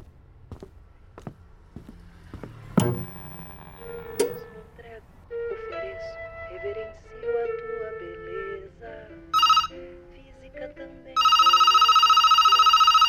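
A telephone ringing with a steady, buzzing electronic tone that starts late and holds to the end, after scattered taps, clicks and short tonal sounds.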